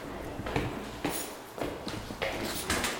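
Footsteps climbing the stairs in a senior care home, about five evenly spaced, soft thudding steps, faint and with no talking over them.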